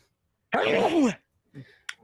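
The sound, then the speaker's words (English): A single sneeze bursts out with a voiced, tonal quality and a falling pitch, loud for under a second. Two faint, brief sounds follow a moment later. “Oh, what was that? That was a sneeze.”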